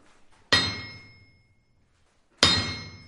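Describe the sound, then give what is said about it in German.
Two sharp metallic strikes of a hammer on an anvil, each ringing with a bright, high tone that decays over about a second, separated by a short pause. “dann kannst du ja mal hier mal auf den Amboss schlagen, um mal zu gucken, was das für ein Ton gibt.”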